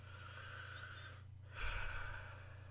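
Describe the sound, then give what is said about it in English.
A slow, deep human breath: two long, airy breathing sounds separated by a brief pause, the second fuller and louder. A faint low hum runs underneath. “Let's take a moment now to just take a deep breath.”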